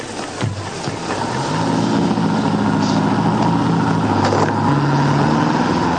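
A boat engine is started at a harbour, its rumble building within the first two seconds into a loud, steady, throbbing drone that holds to the end.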